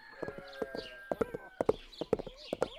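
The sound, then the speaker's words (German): Horse hooves clip-clop as a rider sets out on a ride, giving many sharp, evenly paced hoofbeats in a steady walking rhythm, with sustained tonal sounds running behind them. “Heute reiten wir beide wieder zusammen aus. Los geht's!”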